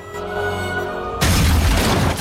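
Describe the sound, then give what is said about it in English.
A tank fires a shell that blasts a hole in a cafe wall: a steady low drone gives way abruptly to a loud, broad, rumbling blast that carries on to the end. “Suddenly, the tank rolls into the square and fires a shell at the cafe, blowing a hole in the wall.”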